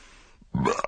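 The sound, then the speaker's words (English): A single short, rough belch after a heavy curry meal, bursting loud out of near silence and ending with a few ragged gulps. “I say, how dare you belch in front of my wife?”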